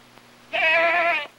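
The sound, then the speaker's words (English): A goat hauled on a leash into a courtroom bleats once, a tremulous, nasal cry lasting under a second, clear and fairly loud over a quiet background with a faint low hum. “Spectators scatter as a guard hauls in Aristotle the goat on a leash.”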